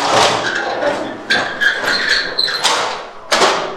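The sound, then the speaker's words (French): A thick, hot copper cauldron of milk for Comté cheese is hauled off the fire, giving metallic squeaks and scrapes, brief ringing clanks and a few heavy knocks. “Alors là, on sort le chaudron du feu. Voilà, là on a fini la première chauffe, celle qui va nous permettre de mettre les ferments et la présure à bonne température. Donc là on le sort du feu et vu que le cuivre est bien épais et bien chaud,”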